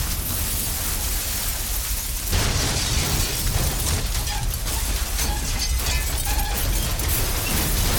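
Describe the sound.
An explosion of twelve fire shells ignited at once: a dense, roaring blast of crackling noise that surges louder a couple of seconds in and keeps rumbling and popping to the end.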